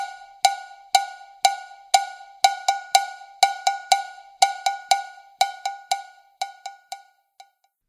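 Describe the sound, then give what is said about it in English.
Small cowbell playing an embellished cha-cha-cha rhythm, with bright metallic strikes on the main beats plus extra quicker notes slipped between them, making an uneven, syncopated pattern of many ringing clanks. “Sometimes extra notes are added between the main cowbell beats to embellish the rhythm. Here's an example of what that sounds like.”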